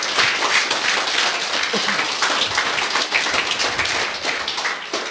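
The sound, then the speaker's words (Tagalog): An audience applauds during a church worship service in praise of God. The clapping is dense and sustained, holds steady for several seconds and eases slightly at the end. “Kaya it's so good to worship God and give Him the highest honor and praise. Isa pa nga pong palakpak sa kanya.”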